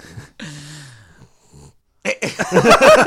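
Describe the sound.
A dog snorts a few times in short nasal bursts, one drawn into a brief whine-like tone, before several people start talking loudly over it.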